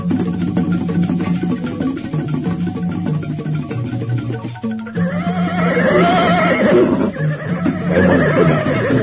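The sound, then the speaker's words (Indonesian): Horses neighing and whinnying as a large group of mounted riders comes around a bend in a road. The sound is loud and continuous, with busy, overlapping tones throughout. “Hamba mendengar derap orang-orang berkuda.”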